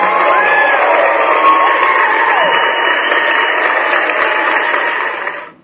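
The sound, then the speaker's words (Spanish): Crowd cheering and applause rise as a steady, dense wash of noise with a few whoops over it, holding at an even level for about five seconds before fading out abruptly at the end. “Nuevamente, aplausos para ellos.”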